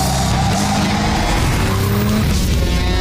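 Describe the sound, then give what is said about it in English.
A tuned, high-powered street car in a video game roars with a loud, continuous engine noise while its tires skid and squeal throughout. “These are for chooms who love the smell of exhaust and the roar of street wildlife. Their powerful engines and exchangeable parts make them perfect for tuning.”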